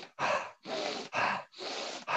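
Rapid forceful breathing in a fast breathing exercise, drawn in through the nose and pushed out through the mouth: about five strong, even breath sounds in quick rhythm with brief gaps, the last one cut short, alone without talk.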